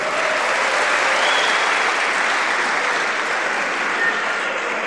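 An audience applauds with loud, steady clapping from many hands, an even roar that continues at constant strength for several seconds.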